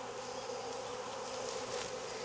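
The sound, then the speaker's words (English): Bees buzz in a hive, a dense, steady drone of many insects that holds at an even, fairly faint level without breaks. “All right, I'm gonna do a shake. There are a lot of bees in there.”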